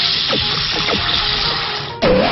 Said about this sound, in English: Foe Materazier used holy water.